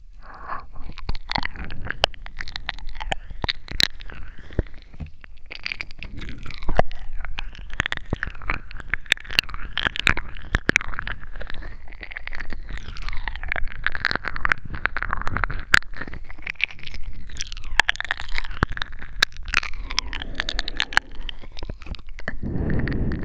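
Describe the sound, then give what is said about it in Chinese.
Crunchy food is bitten and chewed in many crisp, irregular crunches that continue throughout at a moderate, fairly even loudness, with no talking. “好好吃啊。祝愿怎么吃都吃不够呢。”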